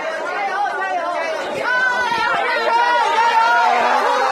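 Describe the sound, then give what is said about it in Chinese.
Crowd of teachers outside an exam hall calling out encouragement to students, a steady, loud mass of overlapping voices with no pause. “大家看到我身后有非常多的送考老师们正在热烈的给学生们加油打招呼。”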